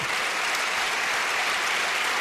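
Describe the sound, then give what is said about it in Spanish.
Applause from a crowd at a Socialist party rally presenting regional candidates in Fuenlabrada, Madrid: dense, even clapping that stays loud and steady throughout. “Un gran aplauso para un equipo ganador.”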